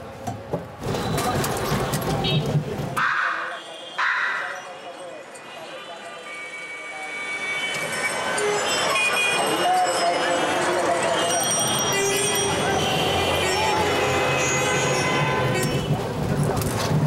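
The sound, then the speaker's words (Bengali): A local mishuk auto-rickshaw, a small three-wheeler taken for village trips, rattles with a loud, steady engine drone and clatter. The sound breaks off briefly early on, then runs continuously to the end. “আমরা স্থানীয় মিশুকে চড়ার মাধ্যমে আমরা যাবো ইনশাআল্লাহ তালা আমরা গাড়িতে উঠছি মিশুকে”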